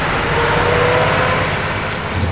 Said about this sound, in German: Dutzende von Autos folgten ihm.